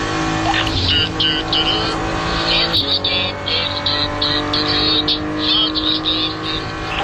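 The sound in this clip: Racing car engine roaring loudly and continuously as it passes a BMW station wagon in a motor race, with someone talking over the engine noise.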